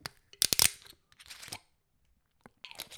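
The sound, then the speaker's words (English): A Ballantine's whisky bottle cap twisted open: a quick cluster of sharp metallic clicks, followed by softer crackling ratchet sounds and a few further clicks near the end. “Okay, so yeah, Ballantine's. Okay, let's hear that metally click.”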